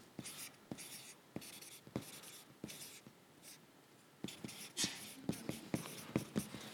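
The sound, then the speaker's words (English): A 3-inch-wide marker writes on a board in many quick, scratchy strokes, some with a squeak. The strokes come in uneven bursts with brief pauses between them. “Did what I could. You tried writing with a 3-inch wide marker.”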